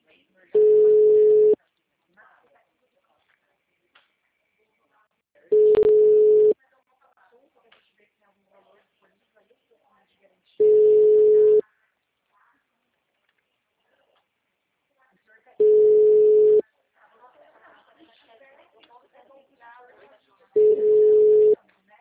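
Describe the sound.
Five identical telephone tones after a call is hung up, each a loud steady beep about a second long, spaced roughly five seconds apart with faint low background noise in between.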